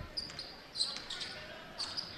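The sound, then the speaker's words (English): A basketball is dribbled on the court in the closing seconds of a Lady Hatchets girls' basketball game: a few faint, irregular thumps with short, sharp high squeaks, over a steady wash of background noise. “Once more, dribble, dribble, dribble, and dribble out of bounds.”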